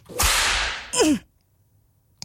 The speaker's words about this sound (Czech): teď dostaneš ránu bičem